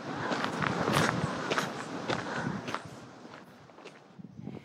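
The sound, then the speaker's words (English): Footsteps of someone walking, many quick steady steps that fade somewhat toward the end. “Just as long as I keep walking, it'll be okay. Just keep walking.”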